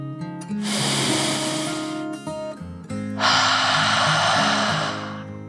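A deep breath drawn in and let out, two long airy rushes separated by a short pause, heard over steady low tones.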